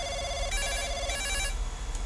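A telephone rings in two short, bright bursts of a trilling electronic bell, each about half a second long, separated by a brief pause and sounding alone without talk.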